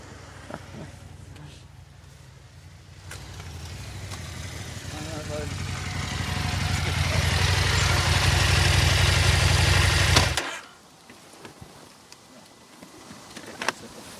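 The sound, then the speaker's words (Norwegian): The last motorcycle of a touring group pulls into its parking spot, its engine rumbling steadily and growing louder for about ten seconds before cutting off abruptly, leaving a few faint sounds. “Nå tror jeg vi får siste sykkelen inn på plassen her.”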